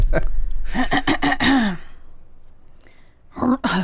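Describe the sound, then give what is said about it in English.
A person clears their throat in a few short, rough vocal bursts, then falls quiet before one more brief, raspy burst. “That's the official throat clear.”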